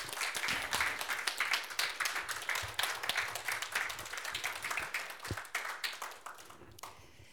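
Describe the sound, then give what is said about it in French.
An audience at a talk applauds warmly, with brisk, closely packed claps forming a lively, fluttering rhythm that stays fairly even before thinning out and fading near the end. “Je crois qu'on peut applaudir chaudement.”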